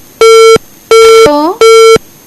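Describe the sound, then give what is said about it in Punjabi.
Three long, steady electronic beeps sound as a telephone line drops during a radio call-in. A brief garbled, voice-like warble follows the second beep. “ਜੀ, ਸ਼ਾਇਦ ਕਿਸੇ ਕਾਰਨ ਇਹਨਾਂ ਦਾ phone ਹੈ ਜਿਹੜਾ disconnect ਹੋ ਗਿਆ ਹੈ, ਕੋਈ ਵੀ ਕਾਰਨ ਹੋ ਸਕਦਾ ਹੈ।”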